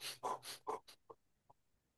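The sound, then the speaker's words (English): Quick, shallow breaths demonstrated by a person: a rapid run of sharp, airy puffs, loud at first, then thinning into a few faint, spaced breaths. “when you are trying to increase your energy, you breathe quickly, right?”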